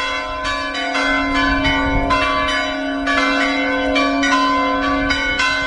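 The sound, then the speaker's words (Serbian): A Serbian Orthodox church bell rings to call worshippers to a feast day at a late 18th-century church. Many loud, regular metallic strikes overlap in a long, ringing tone, with no voices. “ovako je pozivalo zvono Lovranskog srpskog pravoslavnog hrama vernike na praznovanje prenosa moštiju Svetog oca Nikolaja u Bari”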